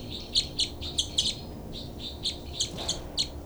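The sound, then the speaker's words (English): Birds chirping give short, high, bright tweets in loose groups of several, fairly faint over a quiet background with no talk. “Both birds.”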